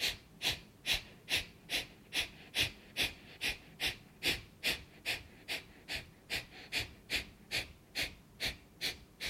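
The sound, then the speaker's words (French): Short, jerky exhalations from a breathing exercise: many quick, forceful puffs of breath in a fast, regular rhythm, each a sharp airy burst, with no talking. “tu vas reprendre ensuite une grande inspiration et te préparer pour les petites, les à-coups d'expiration. Et on inspire. Et expire.”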